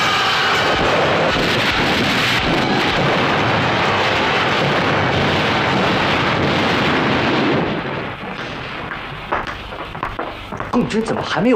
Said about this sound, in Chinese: 我们已经向炮兵延伸射击了，步兵开始冲锋了，冲啊！